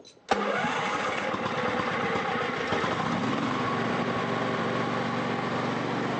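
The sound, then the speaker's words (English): A household generator engine outside a house in Baghdad bursts into life with a sudden loud start, then settles into a steady, continuous droning hum that holds unchanged for several seconds. “two Iraqis are fixing the generator outside their house.”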